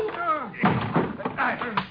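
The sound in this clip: Dull thuds of punches landing in a fistfight, a few heavy blows struck amid raised, overlapping male voices.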